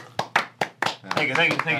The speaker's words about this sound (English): So a round of applause, shall we?